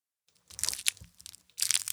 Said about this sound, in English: Munching on the candy. The way I eat Whoppers... is I push one of the Whoppers to the edge of the bag, and I make the candy open the bag for me.